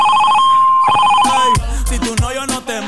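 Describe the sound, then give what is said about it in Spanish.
A telephone rings while someone calls back after a dropped call: a few bright, high electronic ring tones sound before a voice takes over. “Deja, vamos a llamar ya otra vez porque se le cortó la llamada, no sé qué pasó.”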